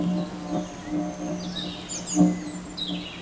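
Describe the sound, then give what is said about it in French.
Birds chirp among vegetation clinging to rock walls. Faint, high, scattered tweets sound over a steady low hum. “captent les gazouillis des oiseaux.”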